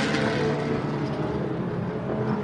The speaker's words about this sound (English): The car now struggling to fire off and away.